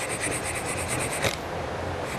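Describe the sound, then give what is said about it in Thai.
Sandpaper rounds off the edge of a softwood piece with a quiet, rapid back-and-forth rasp of short strokes, then settles into a softer, steadier scraping. “ขัดนิดเดียวมันไปแล้วนะเห็นไหมขัดนิดเดียวเองไปแล้วนะฮะ”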